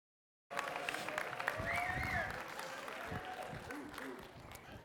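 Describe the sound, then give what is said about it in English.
Audience applause greets a speaker at a morning church service. It swells suddenly out of silence into sustained clapping and crowd noise, then eases slightly toward the end. “So this morning, if you put your hands together and give a warm welcome to Brian Cieslak as he comes.”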